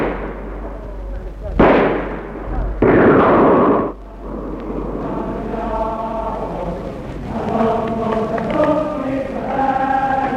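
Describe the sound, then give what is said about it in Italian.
Gunfire crackles in two loud bursts, a short sharp one followed by a longer rattling volley, and then voices talk steadily. “Ora sparano di nuovo.”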